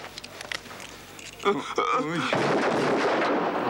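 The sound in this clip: A pistol fires blank rounds in a school cafeteria: two sharp bangs close together, then a sustained burst of loud noise, with people's voices heard among the shots.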